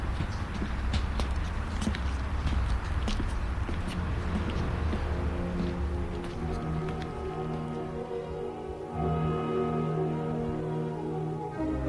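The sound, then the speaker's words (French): Footsteps on deserted night streets clatter in many quick, hard steps over a rain-like wash of noise, before sustained musical tones take over. “Il entend de temps en temps des pas”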